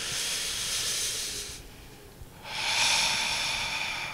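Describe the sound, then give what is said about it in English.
An audience inhaling deeply together: two long, breathy, hissing swells, the second fuller than the first, separated by a short quieter gap. “can we all maybe take a deep breath in together? Let's see, one more.”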